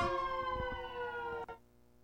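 An L.A. City Fire engine siren passing outside, a faint, steady wail whose pitch slides slightly lower before it cuts off near the end.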